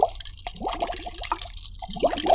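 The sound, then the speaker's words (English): Bubbles blown through a straw into a milkshake: wet gurgling plops and short pitched blips that bubble on and off across the stretch, fairly clear and without talk. “Even now, I blew some bubbles in your milkshake.”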